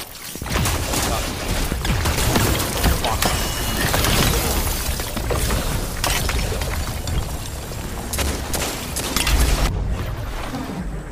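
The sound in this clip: Rapid shotgun gunfire in the police role-play video game FivePD: many sharp, loud bursts crack over a dense, continuous noisy roar that holds steady across the whole stretch.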